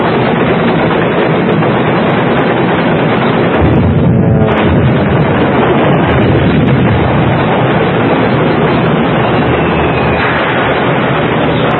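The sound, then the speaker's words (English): A ship's guns fire at an aircraft approaching from astern, producing a loud, dense, continuous barrage of booming gunfire and heavy blasts with no pause or speech. “Commence firing!”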